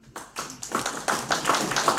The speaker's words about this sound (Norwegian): Vi kjører den en klapp, kom.